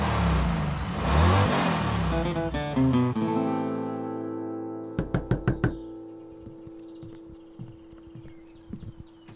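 Race car engines rev loudly at the start of a race, their roar climbing and thinning out, followed by a run of sharp knocks and scattered softer taps.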